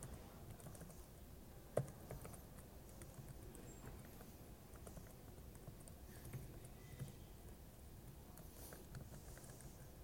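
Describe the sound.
Faint, steady typing on a computer keyboard: a continuous patter of soft key clicks with one slightly louder tap, and no voices.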